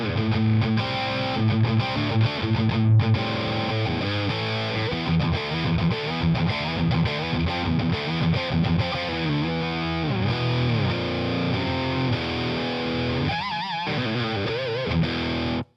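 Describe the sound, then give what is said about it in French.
Overdriven electric guitar through the saturated dirty channel of a two-channel guitar amp head, set to a moderate gain level. Loud, continuous distorted riffing and chords ring out for about sixteen seconds with no talking. “on va avoir un ampli à deux canaux avec là, comme vous l'avez entendu, le canal dirty qui est le canal saturé.”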